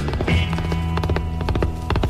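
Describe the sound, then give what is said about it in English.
Hooves of a knight's white horse clop along in a quick, steady rhythm of sharp, distinct strikes, the horse's rider clad in armor. “Say, who is the knight in armor on the white horse?”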